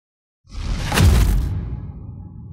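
A single whoosh of a silver ice arrow shot hard through the air: silence, then a swelling rush that peaks loudly and tapers into a low, fading rumble.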